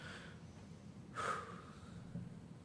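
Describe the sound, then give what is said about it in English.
An audience takes a deep breath together, heard as one broad, breathy swell lasting a fraction of a second amid a low, steady murmur of room noise. “take a deep breath”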